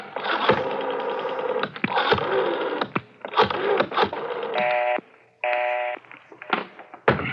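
A telephone is dialed: a run of rattling, clicking mechanical bursts, broken by two short, steady electronic tones near the end.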